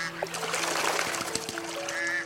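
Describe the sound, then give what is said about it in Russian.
Ducks quack on a pond, several sharp, nasal calls scattered over a busy, continuous bed of sound, with a faint watery splash mixed in. “В пруду плавают утки.”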